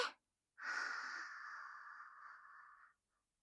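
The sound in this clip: A deep breath drawn in through the airways during a guided breathing exercise: a brief airy puff at the start, a pause, then one long, smooth inhalation lasting over two seconds that gradually softens before stopping, heard alone.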